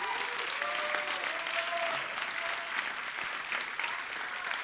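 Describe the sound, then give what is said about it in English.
A church audience claps their hands in sustained, dense applause that stays loud and even from start to finish. “I just want you to give God a strong hand clap for all of you”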